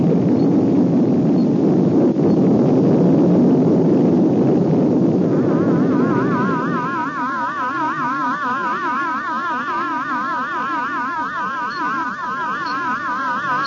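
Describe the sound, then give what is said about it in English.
A rocket blasts off with a loud, broad roar for about six seconds, then settles into a lower rumble beneath warbling, wavering electronic tones. “9, 8, 7, 6, 5, 4, 3, 2, 1. Blast off!”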